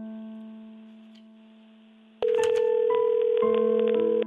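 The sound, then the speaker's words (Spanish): Telephone tones as a call is placed: a faint steady tone fades slowly, then a louder sustained tone begins, broken by a few short bursts and stepped pitch changes. “Bueno, a ver si ya entró la llamada.”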